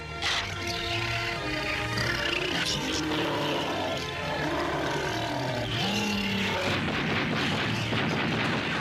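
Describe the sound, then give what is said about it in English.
Gunfire from townsfolk's guns as attacking beasts are blown apart: a dense, continuous roar of loud blasts and booms mixed with other layered noise, steady in level throughout with no clear pauses between shots. “The townsfolk open fire with the guns and one of the beasts is blown apart.”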